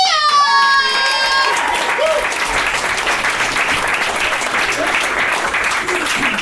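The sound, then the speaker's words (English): Comedy club crowd applauding and cheering for a comic taking the stage, with a high whooping shout at the start over loud, continuous clapping that holds steady throughout. “Give your round of applause to the very hilarious Amanda Lynn”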